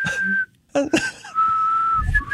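A person whistling a few steady, held high notes, broken by a brief gap and some breathy noise, with the pitch shifting lower for the second long note.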